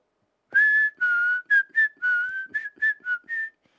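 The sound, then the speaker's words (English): A person whistles a tune: a string of about ten clear notes, some held and some short and clipped, kept within a narrow pitch range, loud and alone. “Whistling while she walked through the palace.”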